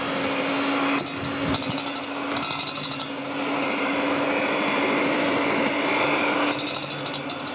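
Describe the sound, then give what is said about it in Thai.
An electric blender runs at speed one on a small batch, a steady whirring drone broken by a few short bursts of higher rattling. “ก็คือเอาตัวเครื่องปั่นนะคะให้ตัวที่เป็นเนี่ยลงไปก่อนนะคะแล้วก็ปั่นนะคะ สปีดเบอร์หนึ่งนะคะ สปีดหนึ่งก็พอ”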